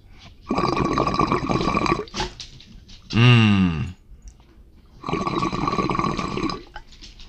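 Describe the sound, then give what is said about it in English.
Vaping sound effects made with the mouth: a long breathy hiss, then a short gurgling, buzzy burst, then another long hiss of similar length. A voice imitates the sound. “let's pretend that I am vaping this as we speak. I'll give you some sound effects to kind of help us out.”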